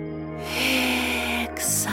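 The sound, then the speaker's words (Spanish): A deep inhale during a guided breathing exercise: a long, breathy rush of air lasting about a second, then a shorter second intake, over steady soft tones. “Exhala. Una última vez. Inhala.”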